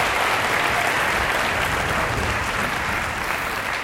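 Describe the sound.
Applause for an orchestra at the end of a performance: a steady, dense wash of clapping from many hands, holding the same level throughout with no clear pauses.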